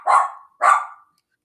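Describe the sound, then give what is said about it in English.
Dogs barking: two sharp, loud, mid-pitched barks in quick succession, then silence. “Sorry, got my dogs with me. My dogs with me.”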